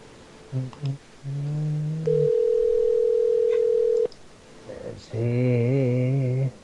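Telephone tones while a call is placed: a few short beeps, then a steady buzzing tone, a long, steady, higher tone lasting about two seconds, and finally a warbling tone.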